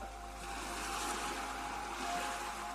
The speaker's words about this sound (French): Tu entends les bruits autour de toi? On dirait bien le bruit de la mer.